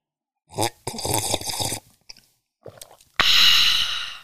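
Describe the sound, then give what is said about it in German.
Tea being sipped: several wet, slurping sips with short pauses, ending in a longer, loud breathy rush of air. “So, aber jetzt hier, Moment, ich trinke jetzt einen Schluck Tee.”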